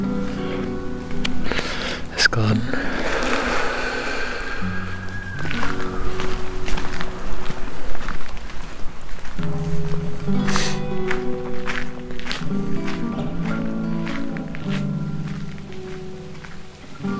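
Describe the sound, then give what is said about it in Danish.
Footsteps walk along residential streets in a long run of many steps, mixed with uneven background noise that rises and falls. “går af villavejene tilbage”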